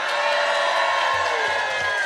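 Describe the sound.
Crowd cheering in a tent at the Edinburgh Fringe Festival, a loud, continuous roar of voices and whoops that stays level from start to finish.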